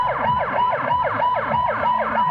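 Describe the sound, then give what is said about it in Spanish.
Ambulance sirens, sounded by doctors protesting in front of the UN headquarters in Sanaa, wail continuously and loudly in rapid, repeating up-and-down sweeps, with no voices. “Con estas sirenas de ambulancia, los médicos yemeníes protestan frente a la sede de la ONU en Sanaa.”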